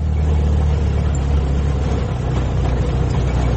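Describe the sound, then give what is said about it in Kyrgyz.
A half-century-old Russian UAZ off-road car, the kind driven on unpaved mountain roads, runs with a steady, deep engine rumble. The rough low drone stays constant throughout, with no voices. “Жарым кылым жашап койгон мындай орустун уаздары Арслан бабта табылгы автоуна, өмүрү асфальт көрбөгөн тоо жолдоруна ушундай машина гана чыдайт.”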